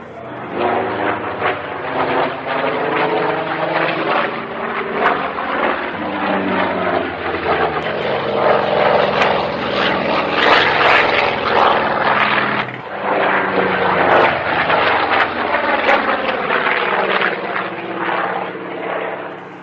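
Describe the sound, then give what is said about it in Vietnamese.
Two AD-6 attack aircraft roar at low altitude, their engines giving a loud, steady droning growl that swells slightly and dips briefly midway, continuing for nearly twenty seconds. “Tiếng động cơ của hai chiếc AD-6 gầm rú như hai con mãnh hổ ở cao độ thấp,”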